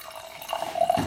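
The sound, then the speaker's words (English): Wine is poured into a glass in a brief liquid pour with a faint gurgle that grows slightly louder toward the end. “you've just poured us some wine. What are we drinking?”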